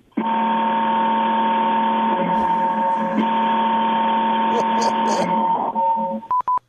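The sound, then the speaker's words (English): A vehicle horn blares like a warning horn, a loud steady tone rich in harmonics holding for about six seconds before breaking into a few short blasts. “That is, that sounds like it's blaring out a warning. What are you driving, sir? That's a hell of a horn, huh? Man. Oh. Like I said, that's a warning horn.”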